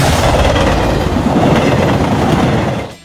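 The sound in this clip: A railway carriage rolls along the track with a loud, steady rumble and a rhythmic clickety-clack that runs almost the whole way through, then cuts off abruptly near the end.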